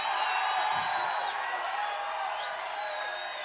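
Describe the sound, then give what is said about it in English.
Studio audience cheering and applauding wildly. A continuous dense wash of clapping with whoops rising over it, steady and sustained throughout. “What are you doing to this audience, Donnie? They're going crazy out there.”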